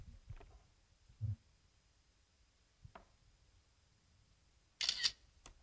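A camera shutter clicks while a selfie is taken, one sharp, crisp snap near the end following a few faint, soft handling noises in an otherwise quiet clip.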